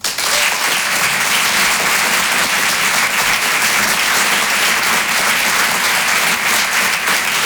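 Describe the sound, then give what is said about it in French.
Audience applause welcomes a comedian onto the stage at a comedy club: dense, steady clapping from a crowd that stays loud and even throughout, with no talking. “Je vous demande de faire du bruit et de l'encourager très chaleureusement.”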